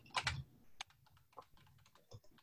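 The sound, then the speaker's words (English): Typing on a computer keyboard: a quick burst of clicky keystrokes at the start, then a few scattered, irregular key taps, all faint and with no voices. “Ooh, I don't like this keyboard.”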